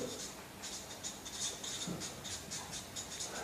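A word being written inside a circle on a diagram: faint, soft scratchy strokes come in a quick, irregular series of short bursts, quiet throughout with no voices.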